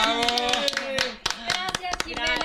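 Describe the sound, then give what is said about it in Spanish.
Applause of hand clapping for a guest at a children's event, a dense patter of claps with sharp individual hits running throughout, moderately loud and mixed with cheering voices and speech. “Pues aplausos para nuestra Simicha.”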